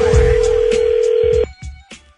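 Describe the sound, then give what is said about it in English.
A telephone ringing with a steady electronic tone that holds for about a second and a half, then cuts off abruptly, followed by a few faint, low thumps. “I'd be careful answering that call. It could be another Z Morning Zoo phone scam.”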